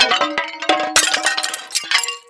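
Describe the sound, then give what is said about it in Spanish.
A serving dish of food drops to the floor with a loud clattering crash. Many bright clinks and clangs ring out in quick succession for about two seconds, then fade. “Uy, la puta se me cayó la fuente al piso.”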